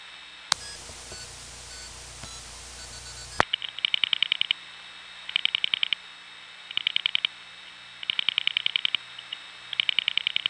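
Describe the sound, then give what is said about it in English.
Telephone dial pulsing seven digits from the White Plains 1 office into an independent step-by-step tandem: a steady tone cuts off, then several evenly spaced bursts of quick, sharp clicks follow with short gaps between them. “We haven't heard White Plains 1 dial pulsing yet, so let's give it 7 digits to dial pulse into an independent step tandem.”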